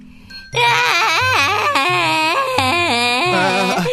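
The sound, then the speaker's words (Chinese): A child cries loudly, a sustained high wail with strongly wavering pitch that starts abruptly after a brief quiet moment and continues without a break to the end. “我怎么好像听到还有人在哭？哎，是谁在哭啊？”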